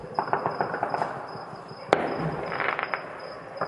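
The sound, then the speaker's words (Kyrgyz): Celebratory fireworks salute fired in Kabul: a continuous stream of crackling pops and small bursts, broken by one sharp, loud bang midway. “31 августта Кабулда талиптер майрамдык салют атып, америкалыктардын чыгып кеткенин белгилешти.”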